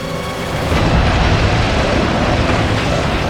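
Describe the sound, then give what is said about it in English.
Shells exploding during a shelling make a loud, heavy rumbling roar. It swells sharply after a quieter start and stays dense and continuous to the end. “we're being shelled, and there's gas.”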